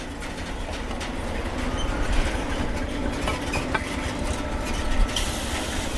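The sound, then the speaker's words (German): Freight wagons being shunted in a rail yard in Chemnitz make a continuous rumbling clatter of wheels and couplings with faint metallic squeals. A couple of sharper knocks stand out, and no one speaks. “So hört sich's an, wenn Güterwaggons rangiert werden.”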